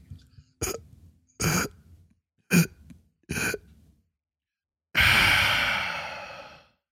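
A person imitates someone holding their breath and gasping in sleep: four short breathy huffs separated by pauses, then a long, loud gasping breath that slowly fades away.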